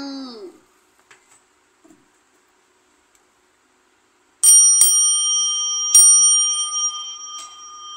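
A bright, clear bell rings out after a stretch of near silence. It is struck three times, with the second strike close after the first, and each ring sustains loudly before slowly fading.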